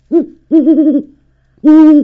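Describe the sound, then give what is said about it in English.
A great horned owl hoots three times, alone: a short low hoot, a longer wavering one, then a loud sustained hoot. “Can you hoot for us some more?”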